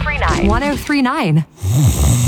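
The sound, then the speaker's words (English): Snoring of the kind that keeps a sleeper awake at night: a few loud, voiced snores with wavering, rasping pitch, separated by a brief silence. “many problems that can keep you up at night, like snoring”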